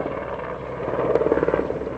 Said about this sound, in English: As a UN helicopter ferries relief supplies to the camp behind him, Juma